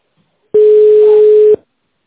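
A single steady, mid-pitched telephone line tone plays while an office call is being transferred. It holds loud and unbroken for about a second, then cuts off abruptly.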